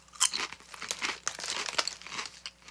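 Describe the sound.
Crinkling of a chip bag mixed with crunchy chewing of mozzarella and marinara Ruffles potato chips: many quick, irregular crackly bursts, fairly quiet, with no talking.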